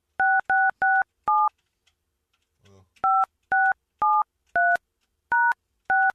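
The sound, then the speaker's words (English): Telephone keypad touch-tones from a misdialed number: four quick beeps, a pause, then six more evenly spaced beeps, each clear and loud against silence. “So sounded like too many numbers. Yeah. I thought so. That was a misdial.”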